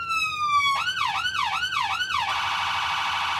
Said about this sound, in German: schalte die Signalanlage ein. Die Schallbox ist der Kasten vor der Motorhaube. Die lautesten Geräusche werden hier geschluckt. Und schalte einmal alle Signale durch.